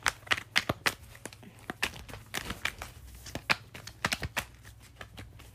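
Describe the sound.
Playing cards shuffled during a tarot-style reading before one more card is drawn: a brisk run of many crisp, uneven slaps and riffles with brief gaps, over a faint low hum, with no talking.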